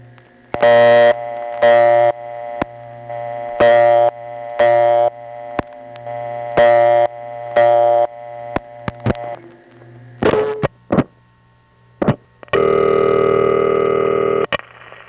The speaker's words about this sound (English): here, it's basically the same tone, but they're using it for a purpose that isn't seen anywhere else. Instead of being the partial dial signal, it's the vacant code tone.